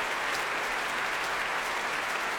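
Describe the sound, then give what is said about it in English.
Dense, steady applause from a concert audience at the Royal Albert Hall after a Brahms piano concerto, a continuous wash of many hands clapping at even loudness throughout. “Bronfman and Rattle, hand in hand, acknowledging the cheers of the audience here at the Royal Albert Hall.”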